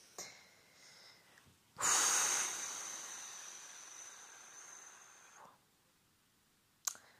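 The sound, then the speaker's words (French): A woman takes a long, deep breath to calm down. It starts with a sudden loud rush of air and eases off slowly over several seconds, ending with a brief faint click. “je vais arrêter là, je vais me poser, respirer. Ça parce que je respire pas en fait.”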